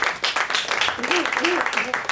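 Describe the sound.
Applause from an audience after a quiz answer, a moderate patter of clapping running throughout while people talk over it.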